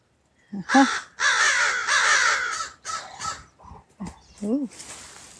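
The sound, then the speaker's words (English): A crow caws repeatedly in a series of harsh, raspy calls. The calls come in irregular bursts, some short and some drawn out, loud and clear with no talk over them. “What does Crow have to say?”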